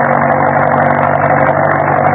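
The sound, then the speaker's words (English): A jeep engine running as the vehicle drives: a loud, steady drone with a low hum beneath a rough, buzzing upper layer, and no talk. “Drive the jeep right out onto the road”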